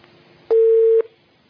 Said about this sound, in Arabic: قطع اتصال.